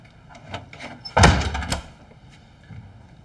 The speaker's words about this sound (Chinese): 把门关上。